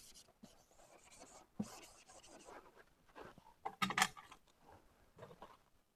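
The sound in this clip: Scratchy marker or chalk strokes on a board as curves are sketched during a maths lecture: uneven rubbing and scraping sounds in short bursts, with a sharper tapping cluster near the end.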